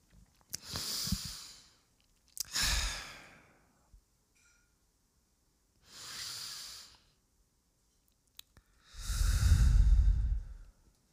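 A person breathes in deeply. Four slow, airy breaths are separated by pauses, the last the longest and fullest, all fairly quiet with no talk.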